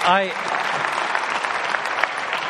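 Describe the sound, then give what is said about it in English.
A church audience claps steadily and continuously, a dense, even patter that holds for the whole stretch, with a brief voice heard at the very start. “of the three congregations, you had the longest clap.”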